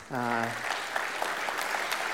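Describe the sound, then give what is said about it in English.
Audience applause welcomes a speaker to the stage. A brief vocal call at the start gives way to a steady wash of clapping. “Why don't you put your hands together and welcome up Scotty Wilson”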